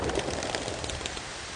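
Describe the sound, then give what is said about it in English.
Rain falling outdoors, heard as a steady, dense patter of drops that stays even throughout the short clip, with no voices. “Water falling through the bloody air. That's what rain does.”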